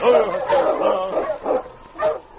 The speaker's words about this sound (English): Sensing death, the mighty husky was uneasy. Sergeant Preston noticed his plaintive whimpering.